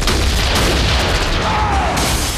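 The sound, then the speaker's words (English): Gunfire exchanged during a police raid in a film scene: loud, dense, continuous booming blasts and cracks with heavy low rumble and no pauses. “They exchange fire, and he's blasted back through a window.”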